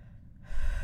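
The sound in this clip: A short, sharp breath drawn in: a quiet start, then an abrupt gasping inhale midway that holds as a breathy rush to the end.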